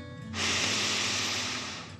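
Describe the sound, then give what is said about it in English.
One long, deep breath taken as part of a calming relaxation exercise for children, a soft airy hiss that starts abruptly and holds steady for well over a second before easing slightly at the end. “let's take three more deep dragon breaths. Deep breath in”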